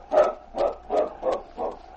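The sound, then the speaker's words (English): A large dog whines in five short, evenly spaced pleading bursts of moderate pitch, each rising and fading, with no voices. “He looked at Preston and whined.”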